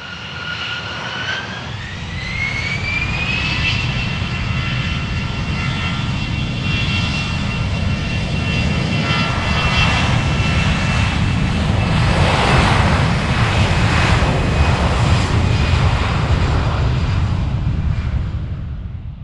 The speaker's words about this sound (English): So that's our In Focus aircraft of the week, the BAC 111.